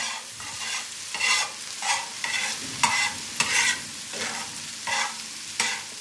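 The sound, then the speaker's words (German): A fried egg sizzles in a pan while a spatula turns it back and forth. A steady frying hiss runs under several scraping strokes that come at fairly regular intervals, with no talk. “Das ist ein Spiegelei in der Pfanne, gebraten mit einem Pfannenwender hin und her.”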